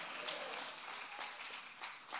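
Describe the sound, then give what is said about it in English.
A church audience claps their hands during a sermon, a soft wash of many hands with a few sharper claps standing out near the end. “Clap your hands and shout hallelujah.”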